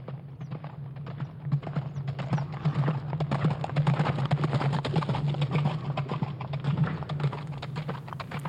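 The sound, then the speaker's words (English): Horse hoofbeats strike the ground in a steady run of many quick clops, with a low hum underneath throughout. “I can remember the sound of the jingler's hoofbeats as they hit upon the ground.”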